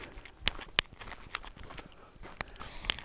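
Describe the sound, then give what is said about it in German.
Footsteps of someone walking along a forest edge, a few faint, irregular crunching steps with sharper clicks standing out from a quiet background. “Mittlerweile laufe ich dann an so einem Waldrand entlang.”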